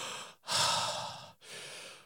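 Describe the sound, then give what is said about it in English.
Two long, deep breaths imitated by a voice, mimicking a football player lying on the ground after sacking the quarterback; loud and breathy, separated by a short pause, with no talk. “and you get a couple of big, deep breaths because you just sacked the quarterback”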